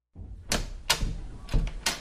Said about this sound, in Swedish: Och då är det, ja, så du kommer in genom dörren.